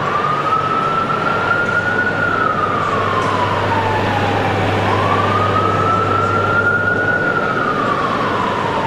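A city emergency siren wails loudly in a slow cycle. It climbs, holds, slides down, then climbs again, over a steady low engine rumble.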